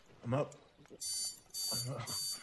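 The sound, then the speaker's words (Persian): An alarm clock rings in the morning with bursts of bright, high electronic beeping, two long bursts separated by a short gap, while a voice speaks around and over it. “جان زنگ رو خاموش میکنه و بلند میشه.”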